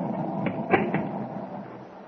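A drawbridge mechanism running as the bridge opens, heard as a steady mechanical rumble with a few short clunks early on.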